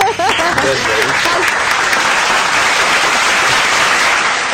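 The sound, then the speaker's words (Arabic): Sustained audience applause from a game show crowd: dense, steady clapping that holds at an even loudness for the whole stretch, with a voice briefly heard near the start. “حطوا لها برافو سقفوا عليها”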